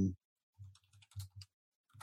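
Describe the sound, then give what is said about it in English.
Quiet tapping on a computer keyboard, several separate keystrokes in an uneven rhythm with short silences between them. “So let's type in real quick.”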